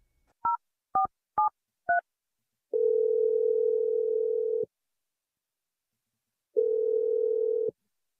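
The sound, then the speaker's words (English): Telephone keypad dialing while calling a number: four short two-tone beeps in quick succession, then two long steady tones separated by a pause of silence. “I'm going to dial her number right now.”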